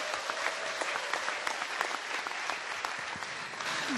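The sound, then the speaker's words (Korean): An audience applauding after a tenor's performance: dense, steady clapping from many hands that holds at an even level for the whole stretch, with no voices over it. “정호윤 테너 성악가에게 다시 한번 큰 박수 부탁드립니다”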